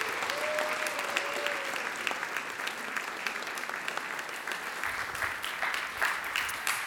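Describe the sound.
An audience applauds to welcome a speaker to the stage at a Midtown gathering. The dense clapping stays loud and even from start to finish, with a short whistle near the beginning.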